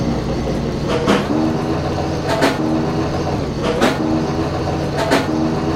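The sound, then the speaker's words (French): A train rolls along a railway track with a steady low rumble, broken by four regular clacking bursts. “Je crois que le train il approche, fais gaffe.”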